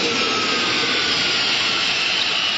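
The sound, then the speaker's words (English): Steady, loud engine roar of a spacecraft coming in to land on the moon, a dense hissing rumble that holds even throughout without breaks or voices. “Hold on, we're about to come into a landing.”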